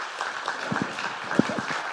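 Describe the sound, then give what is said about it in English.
Church audience applause after a talk about orphanage work: a soft, steady patter of many hands clapping, fairly faint, with a few murmuring voices underneath. “Let's give them a round of applause and talk to them afterwards.”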